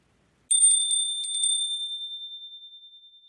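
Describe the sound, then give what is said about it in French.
A bright, high bell chime signals a page turn in a children's Christmas audiobook. It gives a clear, piercing ring heard alone that shimmers briefly, then fades slowly over a few seconds. “À chaque fois que tu entendras cette cloche, il te faudra tourner la page.”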